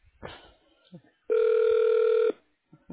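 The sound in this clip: A telephone ring tone plays as a call is transferred to a new number for a health service: one steady, evenly pitched tone lasting about a second, set between brief bits of other sound.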